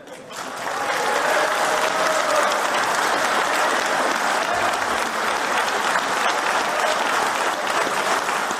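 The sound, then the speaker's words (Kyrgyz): Delegates at a Kyrgyz people's kurultai burst into applause, a dense, loud, steady clapping that rises within the first second and keeps going without a break for about eight seconds. “Мындай мазмундагы билдирүүлөрдү элдик курултайдын башка катышуучулары дуулдап колдоого алышкан.”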